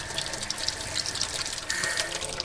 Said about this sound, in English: We have fully functional water.